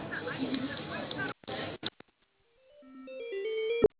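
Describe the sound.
Telephone line sounds as a call is put through to another branch: after a voice, a few soft clicks and a brief silence, then a short series of electronic tones stepping upward in pitch and growing louder.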